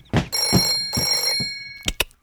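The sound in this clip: A clubhouse telephone rings in two bright, buzzy bursts separated by a short gap, followed by a couple of sharp knocks.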